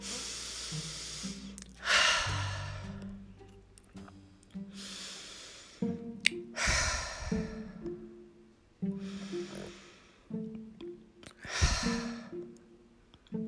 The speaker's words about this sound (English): let's take three good breaths together, shall we? Here we go.